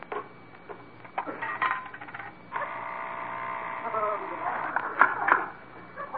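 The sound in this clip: A penny drops into a coin-operated weighing scale, setting off metallic clinks and a rattle, then a steady mechanical whir, with a couple of sharp clicks near the end.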